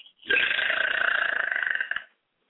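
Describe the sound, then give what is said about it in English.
A single loud, drawn-out burp rumbles for nearly two seconds, steady and raspy throughout, then cuts off into silence. “Was that a burp? Yeah. Damn. That was loud.”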